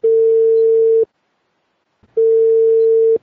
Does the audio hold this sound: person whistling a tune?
no